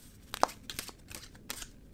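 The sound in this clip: Oracle cards being shuffled: a few soft, crisp rustling snaps and flicks of card stock. They come in short, uneven bursts over a quiet background, with one sharper snap near the end.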